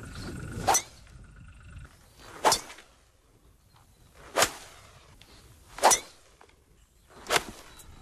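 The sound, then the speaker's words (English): Golf club swings: five sharp, bright swishing strikes spaced evenly about every second and a half, each a quick loud burst over a faint, steady background. “That is the sound of a golf swing.”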